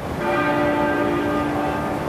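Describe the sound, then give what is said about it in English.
Church bells toll for a monarch's state funeral as the coffin is carried from Westminster Hall. A loud, sustained, resonant ringing with steady overlapping tones holds unbroken throughout, with no voices. “Bells tolled 96 times, once for every year of the Queen's life”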